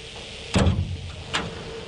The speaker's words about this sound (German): Die dunkelgrüne blecherne Tür am Fuß des Windradturms wird geöffnet.